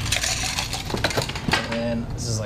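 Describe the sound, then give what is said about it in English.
Ice clinks as a cocktail made with apple and aromatic bitters is stirred, with quick, light chinks of metal against ice and glass and a voice briefly audible underneath. “All right, we're going to add our ice and stir.”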